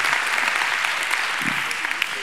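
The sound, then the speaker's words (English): Church audience applauding the dads in the audience, a dense, loud, steady burst of clapping that fills the whole moment without a break. “All of our dads, would you stand, and let's give it up for our dads today.”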